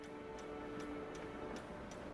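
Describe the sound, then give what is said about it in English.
Clock ticking faintly, about five evenly spaced light ticks at a steady pace over a continuous low hiss, with no voices. “He looks at the clock.”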